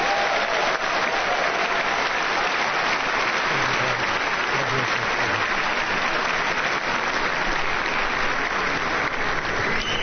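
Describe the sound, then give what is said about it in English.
Dense audience applause welcomes a speaker to the stage at an Alumni Day evening event. It runs steady and loud for the whole stretch, a continuous wash of many hands clapping with no voices rising above it. “Let's put our hands together and welcome Dr. Gary Chapman.”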